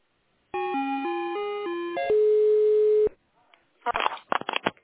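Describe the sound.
A telephone line tone plays while a call connects to a hotline specialist: a short run of stepped electronic beeps, then a steady held tone lasting about a second. A few brief noisy bursts follow.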